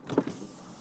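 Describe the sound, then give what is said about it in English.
The electric window motor of a 2007 Ford Fiesta 5-door Z-Tech gives a short, quiet whirring hum lasting under a second, peaking early and fading away. “That's the sound of my automated car window on my 2007 Ford Fiesta 5-door Z-Tech.”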